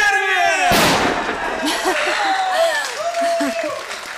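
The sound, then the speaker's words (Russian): Celebration fireworks going off as a surprise party greeting: one sharp, loud bang followed by a dense crackling burst that fades over a few seconds, with voices calling out over it. “фейерверк! Ой, вот и они.”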